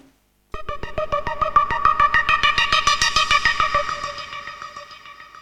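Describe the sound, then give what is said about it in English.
A bright, buzzy supersaw preset on a Serum wavetable synthesizer plays through an Ableton arpeggiator: a rapid, even stream of many repeated notes with a rich, layered tone that starts loud and gradually fades. “I'll be using this preset SY Pop Supersaw, which sounds like this.”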